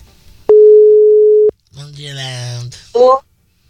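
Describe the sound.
Ringback tone of an outgoing telephone call: one steady, hum-like tone lasting about a second. Afterwards a voice-like sound with harmonics follows, and then a short higher burst.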